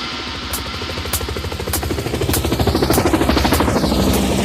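An aircraft flies overhead, producing a loud, rumbling engine drone with rapid rhythmic throbbing that grows louder and denser through the second half.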